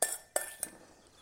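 A soup spoon clinks against plates while blinis and tomatoes are served. Three light, bright clinks sound alone at a faint level, each ringing briefly before fading.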